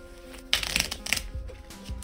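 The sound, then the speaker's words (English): Riffle shuffle of a fresh deck of playing cards at a card table: a dense, crisp rattling burst lasting under a second, followed by a few softer flicks and taps as the cards settle. “I took the proffered deck and began to shuffle.”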